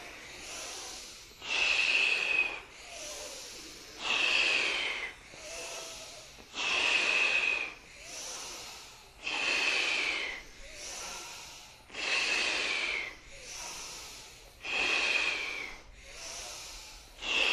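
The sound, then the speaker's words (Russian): Deep breaths drawn through the nose during a yoga kriya meditation repeat in a slow, steady cycle, with louder rushing inhales alternating with softer, breathy exhales many times over, and no talking. “Вдох до затылка, прям дотягиваем.”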